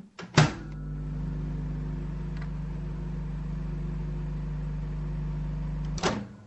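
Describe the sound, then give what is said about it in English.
A microwave oven runs for about five seconds to melt something, giving a steady low electrical hum with a sharp clunk as it starts and another as it stops. “do you want to put your microwave on?”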